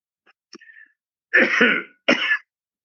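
A person clears their throat: a few faint, small catches followed by two louder, rasping bursts, the second one shorter.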